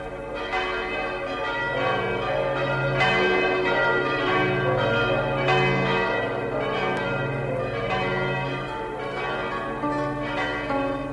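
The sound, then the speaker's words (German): Newly hung church bells peal out for weddings in a continuous stream of overlapping strikes, each ringing with rich, lingering metallic tones. The volume stays steady throughout. “Und als die neuen Glocken zum ersten Mal läuteten, da läuteten sie nicht nur um ihrer selbst willen, sondern auch für ein Dutzend Hochzeiten.”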